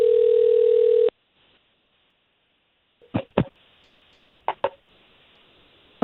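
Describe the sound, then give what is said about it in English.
A steady telephone dial tone sounds for about a second and cuts off abruptly while a call is placed. A silence follows, then two pairs of sharp, brief clicks, and a new tone begins at the very end. “Brenda first, so let us get her on the line and see what we can get from her first”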